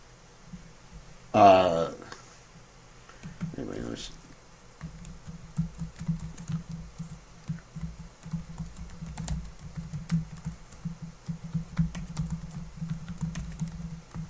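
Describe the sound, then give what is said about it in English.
Typing on a computer keyboard: many light, rapid clicks in an irregular rhythm, running steadily through the second half after a couple of brief louder bursts early on. “what was the example I was going to use when I was just typing in some text window to someone?”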